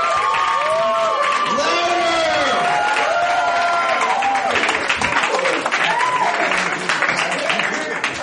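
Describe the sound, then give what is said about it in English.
An audience claps and cheers loudly for a performer. Rising and falling whoops and shouts stand out early over steady applause, and the dense clapping carries on throughout. “make some noise for Steven, ladies and gentlemen”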